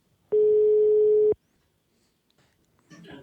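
A telephone tone sounds while a call is being placed: a single steady, loud, one-pitched beep lasts about a second and then cuts off to near silence.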